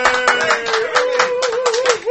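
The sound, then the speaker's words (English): A small round of applause in a radio studio, a few people clapping in a quick, uneven rhythm while a drawn-out vocal cheer sounds beneath. “Have a round of applause for that one, huh? Yay!”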